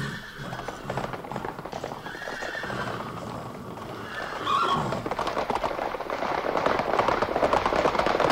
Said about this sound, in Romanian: Pregătiți-vă de plecare. Trap întins, nu mai facem niciun popas.